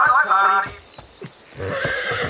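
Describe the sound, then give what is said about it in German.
A horse gives a high, wavering neigh, followed by a few sharp hoof clops and then a denser run of clattering hoofbeats as it is urged toward a gallop. “Mach schon, Galahad. Ins Galopp. Los.”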